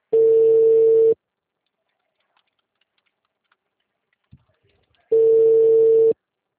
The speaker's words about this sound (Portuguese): Caiu a ligação.